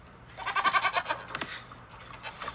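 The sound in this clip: Dairy goats bleating in a barn before milking: a few loud, wavering, nasal bleats bunched together early, then quieter scattered calls and light shuffling noises.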